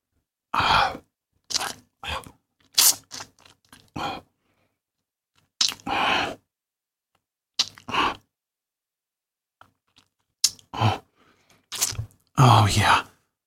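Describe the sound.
A performer's mouth imitates a vampire biting and drinking blood: many short, crunchy, wet bursts separated by silences, ending in a longer and louder burst.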